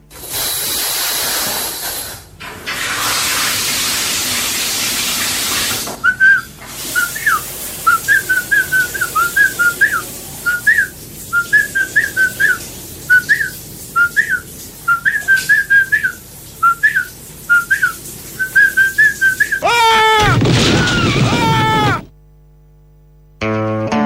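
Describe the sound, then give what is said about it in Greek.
A man whistles a lively tune in the bathroom, a string of short, high, bird-like phrases over a constant hiss, loud and clear with no talking. “θα πάμε τώρα να ακούσουμε τι κάνει στο μπάνιο του, τι σφυρίζει”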